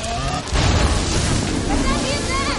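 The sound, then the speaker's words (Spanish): A fighter ship crashes in a Star Wars science-fiction adventure film: a sudden loud roaring impact hits about half a second in, followed by a sustained rushing, rumbling wash of noise. “El caza se estrella.”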